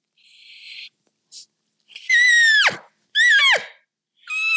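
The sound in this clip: Turkey mouth call played by a person, giving kiyuk notes: high, whistling tones in short bursts separated by pauses, two of which break sharply downward into a yelp. No talk is heard.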